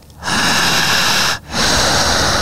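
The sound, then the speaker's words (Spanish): Person demonstrating a breathing pattern during a hypnosis session: two long, loud, airy breaths with a short pause between them, hissing and noisy, with no talk. “Empieza a respirar igual que yo.”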